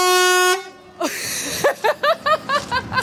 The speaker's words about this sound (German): Das war ja ganz schön laut, die LKW-Hupe.